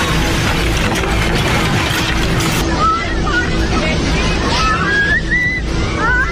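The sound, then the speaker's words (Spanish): A cathedral collapses during an earthquake in a loud, dense crashing roar, followed by agitated voices shouting over continuing rumbling noise. “¡Mira, se cayó el santo! ¡Se cayó! ¡Ay, se cayó! ¡Ay, se cayó! ¡Terremoto! ¡Se cayó la catedral!”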